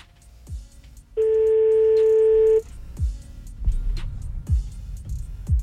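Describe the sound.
A telephone call is placed with a single steady tone of about a second and a half, loud and even. It is surrounded by fainter clicks and low thumps before and after.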